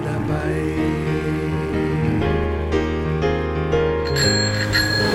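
A bicycle bell rings out repeatedly over a dense musical backing with sustained tones, its bright metallic chimes standing out loud and clear throughout, with a sharper burst of ringing near the end.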